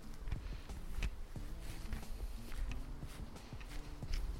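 Footsteps cross an outdoor meadow of dug-up ground on a cool, windy day, making a steady run of many soft crunching steps at an even walking pace.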